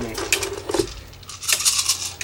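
Three dice roll during a tabletop dice game, making two short bursts of hard, rattling clatter separated by a brief pause.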